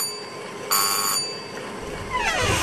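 A calling bell on an office desk is pressed: a single short, bright electric ring lasting about half a second, then quiet.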